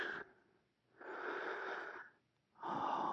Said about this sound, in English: Feel my breath on your ear.